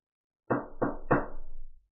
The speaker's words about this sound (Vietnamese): La Phùng đi tới gõ cửa